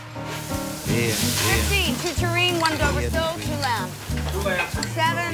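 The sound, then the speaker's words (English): Food sizzles in a busy restaurant kitchen, a continuous bright hiss of frying that runs steadily beneath voices talking throughout. “Later in the busy kitchen.”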